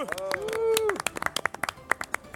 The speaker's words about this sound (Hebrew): בוא נקבל מחיאות כפיים, מנדי ג'רופי.